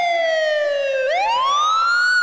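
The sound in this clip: An ambulance siren wails loudly and alone, its steady, harmonic-rich tone gliding downward, then sweeping back up and holding high.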